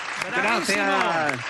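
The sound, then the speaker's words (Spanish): Audience applause at a live comedy performance, a dense patter of clapping running throughout beneath a person speaking. “Un aplauso para Pablo BH.”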